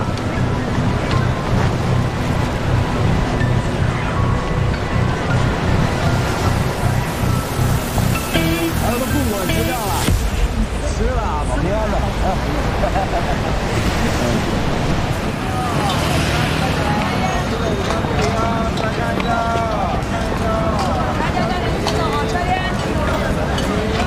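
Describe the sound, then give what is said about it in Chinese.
Strong wind roars and buffets the microphone without pause, mixed with the wash of surf, while people talk beneath the gusts. “风太大了，走了。”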